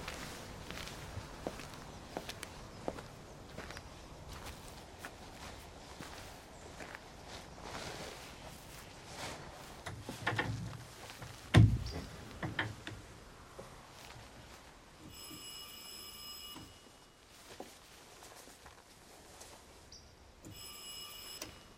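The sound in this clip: Faint footsteps sound as a person walks from a van up to the front door of a house. Many soft, scattered steps and light scuffs come through low and quiet, with no voices.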